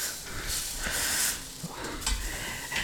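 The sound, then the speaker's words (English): Steak sizzles in a hot pan during live cooking of carne asada, a continuous crackling hiss that swells and dips slightly, with brief stirring or scraping sounds mixed in and no talk. “This is live cooking. The way he flips the steak is so delicate.”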